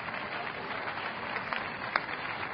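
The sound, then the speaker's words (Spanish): An audience applauding at a church service, a faint, dense, steady patter of many hands clapping at once with no pauses. “Cuando aplauda, diga, el aplauso es para ti, Jesucristo.”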